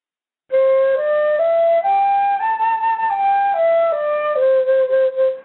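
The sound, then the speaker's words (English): A C major pentatonic scale runs up and back down in nine clear, evenly held notes, climbing five steps to the top and descending four to the starting pitch. The tones are steady and moderately loud, with no talk. “So going back to being in the key of C, that means it's C, D, E, G, and A, and it sounds like this.”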